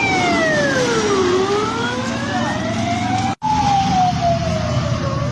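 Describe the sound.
Ambulance sirens speeding past near a bus stop, a loud wavering wail that sweeps down and climbs again over a steady traffic rumble.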